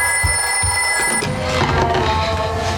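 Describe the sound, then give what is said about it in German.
A telephone rings in a 1950s setting, a steady, bright, high ringing tone that holds for just over a second before giving way to a denser, busier sound. “bis Alice eines Tages einen seltsamen Anruf bekommt.”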